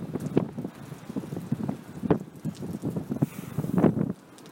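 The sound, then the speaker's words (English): Wind picks up outdoors on a night of dropping temperature, a rushing, rumbling roar that swells and eases in gusts, then drops abruptly to a softer hush near the end. “Maybe you can hear that wind. Oh, said, it's picking up.”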